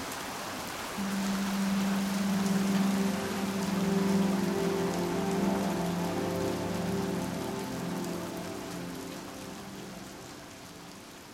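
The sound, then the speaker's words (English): Steady rain falls in a dense, even hiss that swells in after the first second, then slowly eases toward the end. “once the rain stops and the waters begin to recede and things begin to dry up, that creosote smell, just as gently as it came in, begins to sort of fade out.”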